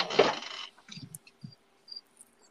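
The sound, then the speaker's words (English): Crickets outdoors, a few short, high, faint chirps scattered through a quiet stretch that opens with a burst of louder rustling noise and a few other soft knocks. “I thought that was a cricket. Yeah, I'm outside now, so there are crickets.”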